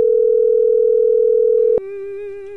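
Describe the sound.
Telephone line tone heard while a call waits to be answered: a steady, loud single-pitch tone that switches abruptly to a buzzier, harmonic-rich tone partway through, with no voices.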